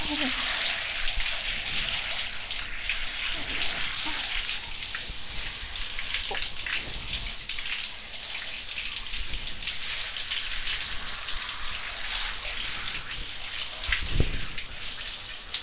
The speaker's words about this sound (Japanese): 頭皮にお湯をかけることを意識しながらやるのがポイントなんだって。片手でやるの難しい。